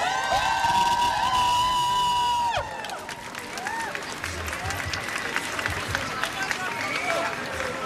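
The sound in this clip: A student protest crowd at a school strike against conscription cheers and makes noise: loud high whoops and shouts for a few seconds, then looser cheering and clapping that carries on to the end.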